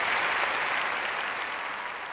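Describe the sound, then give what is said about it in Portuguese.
Applause from an audience, a dense, steady wash of clapping that holds at an even loudness throughout, with no voices rising above it. “Uma salva de palmas!”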